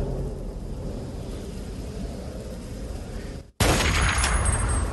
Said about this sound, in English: Let's try our sniper rifle just for grins.